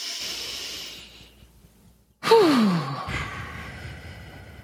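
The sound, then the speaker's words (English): A deep breath is drawn during a calming body-awareness exercise. It comes as a sudden, fairly loud airy sigh with a falling voiced tone that fades over about a second, after quieter breathy sound. “Just taking a deep breath.”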